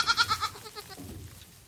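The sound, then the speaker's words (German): A newborn goat kid bleats on its first day while being bottle-fed its mother's colostrum. It gives a faint, high, quavering cry made of quick wavering pulses that soon trails off. “An ihrem ersten Lebenstag füttere ich den Zicklein die Biestmilch der eigenen Mutter mit der Flasche.”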